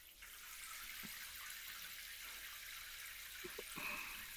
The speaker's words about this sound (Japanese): このぐらいにして流していきましょうか。お湯が熱かったら教えてください。